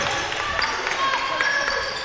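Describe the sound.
A basketball is dribbled during a high school game as George Ranch brings it up the floor, a few soft bounces sitting under steady crowd noise while a commentator talks over them.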